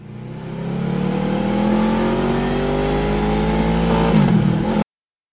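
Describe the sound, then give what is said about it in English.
A Honda Gold Wing motorcycle engine drones steadily. Its hum swells in and slowly rises in pitch as it accelerates, then cuts off abruptly near the end. “Yeah, this is what the gold wing sounds like.”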